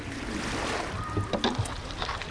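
A long flat-bottomed punt on the Nagold river, pushed slowly from the stern with a six-metre pole against the bed of shallow water, gives steady water and wind noise with a few soft knocks and splashes midway.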